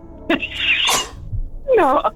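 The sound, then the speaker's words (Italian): A single sharp sneeze straight into a microphone, loud and breathy, followed after a short pause by a brief voiced sound. “Salute. Quando vuoi starnutire nel microfono.”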